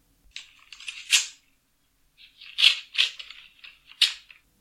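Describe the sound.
Paper crackling and tearing as an envelope is opened for a football award announcement, in two clusters of crisp, bright rustling bursts separated by a short pause, without talk.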